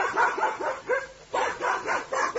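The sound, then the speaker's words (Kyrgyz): Stray dogs barking in a cold, windy village street at dusk. Many quick, high yips and barks overlap in a busy, uneven stream. “Алдыбыздан көчө жорткон иттер тосуп алышты.”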